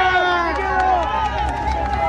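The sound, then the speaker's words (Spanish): A crowd walks alongside Chilean president-elect José Antonio Kast, with a continuous jostling bustle of many overlapping voices and shuffling movement, loud and close throughout. “El audio ambiente que escuchas, Katy, que escuchan auditores, sí. Hay gente que nos empuja porque acá van avanzando con nosotros, en la medida que nosotros también tratamos de seguir el paso del presidente electo José Antonio Kast.”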